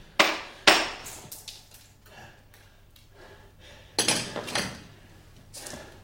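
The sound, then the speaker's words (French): Violent hammer blows struck to a man's head in a stage drama set during the French Revolution: sharp, heavy impacts in two bursts, a pair early and several more later, with quieter rustling between. “Malais assène de violents coups de marteau sur la tête de Marat”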